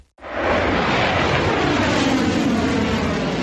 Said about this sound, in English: A missile shoots into the sky, leaving a long white tail behind.